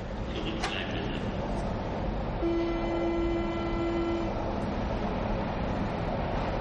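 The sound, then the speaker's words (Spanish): Metro train departing from a platform: a low, steady rumble of the carriages, with a sustained horn-like tone of about two seconds in the middle, quiet throughout. “Mira en otro vagón y se aparta del tren. El metro se va.”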